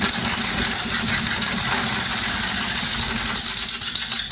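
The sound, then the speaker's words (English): A prize wheel being spun gives off a dense, rapid run of ticking clicks that forms a continuous loud rattle, holding steady and thinning slightly at the very end. “spin that wheel”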